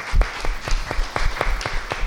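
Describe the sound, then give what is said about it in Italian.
Applause welcoming a doctor to speak: separate, fairly sparse claps in a loose, uneven rhythm, each hand strike distinct rather than merging into a wash, at moderate volume. “E quindi io vorrei che davvero accogliessimo con un applauso la dottoressa Carla Bena”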